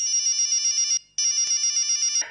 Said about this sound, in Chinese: 林烟放在桌面上的手机欢快地叫了起来